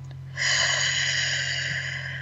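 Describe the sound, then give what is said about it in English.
A deep breath drawn in through the nose as a long, steady, airy hiss that starts sharply and holds for nearly two seconds over a low hum. “So let's take a breath together. In through the nose, out through the mouth,”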